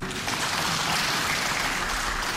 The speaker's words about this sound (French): À l'entrée de leurs collègues de l'opposition dans l'hémicycle, tonnerre d'applaudissements des députés de la majorité.